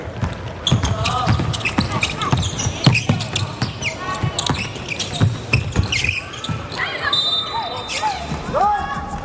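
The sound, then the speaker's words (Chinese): A basketball is dribbled during a game in a busy run of repeated bounces. The bounces sit amid court noise and continuous commentator talk. “两次运球了”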